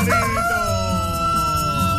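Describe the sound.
A rooster crows a loud, long, drawn-out call with strong ringing harmonics that fills the whole moment, with no talk over it.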